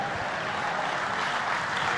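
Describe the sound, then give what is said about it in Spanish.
A church audience clapping during a Spanish-language service, a dense, continuous patter of many hands at a steady, fairly loud level throughout. “Si le va a dar palmas a él, dele palmas hoy este día, iglesia.”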